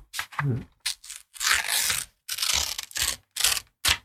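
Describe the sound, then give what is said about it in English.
A golden envelope is torn open in a series of short, loud, crackling rips and tears, each burst separated by brief silences. “I'm going to open the golden envelope here.”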